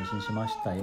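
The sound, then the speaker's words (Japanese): A pet cat meows in the middle of speech, its clear mid-pitched cry rising and falling over roughly a second while a person talks at the same time. “あ、みーちゃん、 猫が。”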